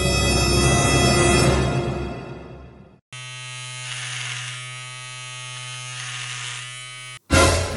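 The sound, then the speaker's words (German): An electric razor buzzes as a fan's head is shaved, a steady harmonic drone that fades out after a few seconds, then restarts and holds before a brief final burst. “So rasierte sich ein Belieber nach dem anderen den Kopf.”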